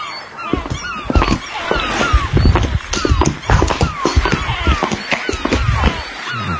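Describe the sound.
Seagull calls from a summer beach sound effect: many short descending cries repeat throughout, over a busy layer of thumping and scraping.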